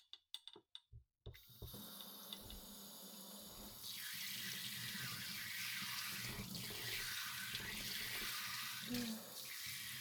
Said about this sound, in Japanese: お湯はこのくらいの温度でしたか。シャワーで今度は